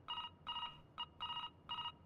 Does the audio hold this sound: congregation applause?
no

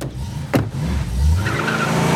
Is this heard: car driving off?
yes

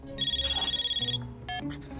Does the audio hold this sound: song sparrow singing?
no

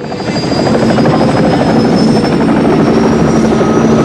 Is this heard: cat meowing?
no

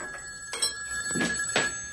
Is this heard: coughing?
no

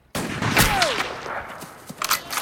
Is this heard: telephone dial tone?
no

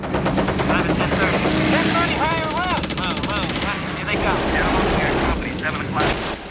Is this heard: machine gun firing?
yes

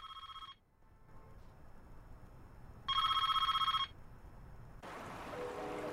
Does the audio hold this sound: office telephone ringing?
yes

